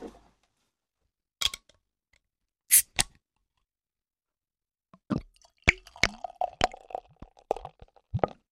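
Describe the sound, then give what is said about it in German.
A bottle is opened with a few short, crisp clicks and pops. After a pause a drink is poured, a run of bubbly glugs, splashes and drips. “Und ich würde auch vorschlagen, wir machen die Flasche auf, oder?”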